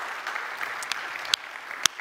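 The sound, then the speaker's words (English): A church audience applauding its volunteers, with continuous clapping from many hands and a few sharper, louder claps standing out from the steady wash. “You're pretty much gonna have to clap for yourself because it's the majority of our church.”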